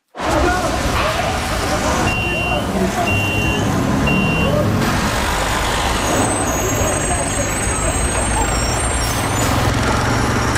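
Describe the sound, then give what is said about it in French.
City street traffic in the greater Montreal area: a truck rumbles under a dense wash of road noise and air-brake hiss, with three short high beeps early on and fainter tones later. “Oui, c'est bien dans la radio que ce bruit joue.”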